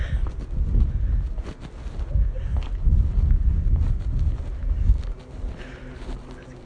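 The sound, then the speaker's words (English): Wind buffeting the microphone while walking a narrow back street of tiny old houses, a loud, low, rumbling roar that gusts and eases throughout. “Wind again.”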